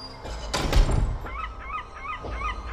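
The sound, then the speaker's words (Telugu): Monstrous birds screech as they burst out of an abandoned, dust-covered, vine-overgrown house when its door is opened: a loud, rushing burst at first, then a string of shrill, repeated cries. “ఒక్కసారిగా వాళ్ల మొహాలని రక్కుతూ రాకాసి పక్షులు బయటకు అరుస్తూ వెళ్ళిపోయాయి.”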